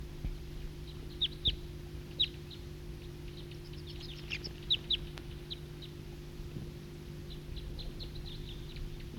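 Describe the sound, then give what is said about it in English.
A flock of wild birds gives faint, high, scattered chirps. The calls come in intermittent clusters over a steady low hum. “It's recording flock of wild birds.”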